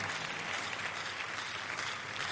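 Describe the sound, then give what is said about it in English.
Congregation applauding during an evening church service as a clap offering: a dense, steady patter of many people clapping together, fairly faint but even throughout about two seconds. “Shall we give the Lord a big clap offering tonight?”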